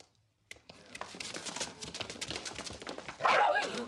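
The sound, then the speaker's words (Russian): Dog-like barking in an audio drama: a rapid run of many short yaps and barks, faint at first, growing denser and louder toward the end. “Шариков лает на Швондера.”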